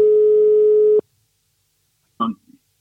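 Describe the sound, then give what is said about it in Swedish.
A telephone ringing tone plays while a call is being placed: one steady, mid-pitched tone lasting about a second. Silence follows, then a short burst of sound. “nu måste vi ringa upp Hasse Backe och se om han är redo här”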